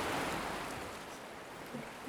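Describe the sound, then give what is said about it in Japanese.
Ocean waves make a soft, continuous hissing wash that slowly ebbs and swells slightly, with no voices. “こうして波の音に支配されているだけで”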